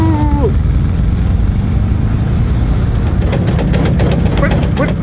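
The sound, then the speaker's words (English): A car drives on a flat tire, a loud, steady engine rumble joined after about three seconds by a rapid rhythmic flapping thump. “What is that noise? A flat tire.”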